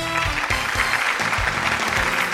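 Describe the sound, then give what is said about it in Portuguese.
Applause for a member of a morning show's production team: dense, continuous clapping at steady loudness through the whole clip. “Uma salva de palmas pra ele, produção.”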